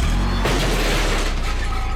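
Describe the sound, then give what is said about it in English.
A car backing into a garbage can gives a loud, dense crunching and rumbling clatter. It holds steady for about two seconds, with no voices. “That's the sound of a car backing into a garbage can.”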